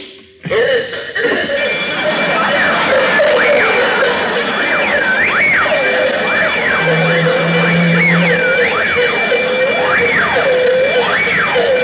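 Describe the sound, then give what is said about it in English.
Loud burglar alarm sounding, an electronic tone that warbles up and down in repeated cycles over a steady high ringing, starting abruptly and continuing without pause. “A louder burglar alarm.”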